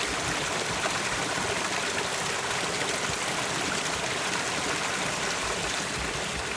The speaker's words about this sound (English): The water comes over a concrete weir.